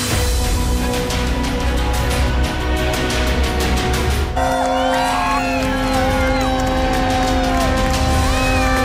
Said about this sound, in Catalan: Entrem en territori olímpic perquè això que sentiu de fons doncs és just el moment en què la flama ja arriba a França, recorre ja terres franceses, ha arribat en vaixell via Marsella